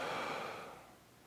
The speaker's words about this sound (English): So why don't you do this with me? Take a big breath in now let it out.